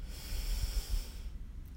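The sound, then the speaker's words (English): A slow breath drawn in through the nose during a guided breathing exercise: a steady, soft airy hiss that holds for over a second, then fades out, with no talking. “Breathe in.”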